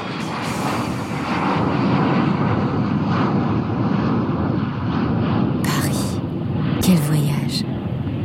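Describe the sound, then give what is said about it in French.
A propeller airplane in flight gives a dense, steady low drone that holds at an even loudness from start to finish. “Nous sommes passés par l'Islande avec un avion à hélice.”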